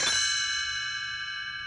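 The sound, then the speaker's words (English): Small bells chime as a page-turn signal in a read-along storybook: one bright, high ring struck at the start and left to hang, slowly fading. “You will know it is time to turn the page when Tinkerbell rings her little bells like this.”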